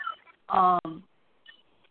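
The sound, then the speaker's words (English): A loud electronic beep cuts through an online call: one harsh, buzzy tone lasting about half a second, with a very brief break near its end. Faint, quiet sounds come before and after it. “There was like a weird, like loud, like beep.”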